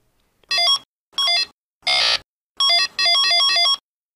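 Electronic beeps come from Merlin, a 1970s handheld electronic game. Five short bursts of rapidly warbling synthetic tones, one of them a harsh noisy buzz and the last one longer, are separated by silence.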